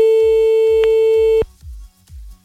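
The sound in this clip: A telephone line tone while placing a call: one steady, single-pitched tone holds for about a second and a half, then cuts off abruptly, with low, regularly repeating thuds pulsing underneath the whole time.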